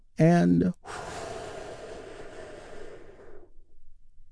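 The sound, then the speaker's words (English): A big, deep healing breath during a guided relaxation session, heard as a short voiced sound followed by a long, airy exhale that slowly fades over about three seconds. “Here is the beginning of the healing as we begin with a big, deep healing breath.”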